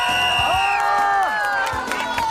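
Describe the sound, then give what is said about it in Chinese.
Cheering crowd with children's shouts at a tug-of-war prize ceremony, a brief burst of voiced whoops that slide downward in pitch, with light clapping mixed in, fairly loud throughout. “来掌声欢呼一下”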